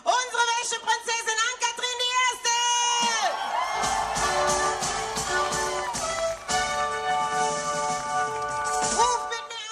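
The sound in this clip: A crowd cheers, whoops and shouts at the Weiberfastnacht carnival as the Washerwomen's Princess arrives, loud and sustained with high-pitched calls and many voices throughout.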